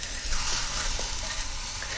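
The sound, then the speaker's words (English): Food coated in hot boiling sugar sizzles on a grill, a steady bright hiss with scattered tiny crackles and pops, fairly faint and with no talking. “that's hot boiling sugar on it. Look at that. Mm. Okay, one more flip so we get a nice grill mark on the cut side.”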